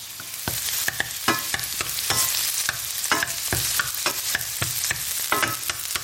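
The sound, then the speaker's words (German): Onions sizzle in a frying pan as they cook for risotto, a steady crackling hiss broken by many scraping, clicking stirs at an uneven rhythm, with no voices. “Die Zwiebeln brutzeln hier schon in der Pfanne. Immer mal wieder ein bisschen umrühren, damit nichts anbrennt. Ich mache heute Risotto.”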